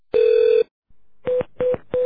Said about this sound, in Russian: Звонит.